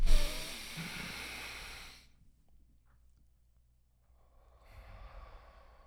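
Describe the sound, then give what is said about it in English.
A group takes a deep breath, in through the nose and out through the mouth: a loud, airy inhale of about two seconds, a quiet pause, then a softer, breathy exhale. “We're going to take a deep breath as a tribe. Okay. In through the nose, out of the mouth”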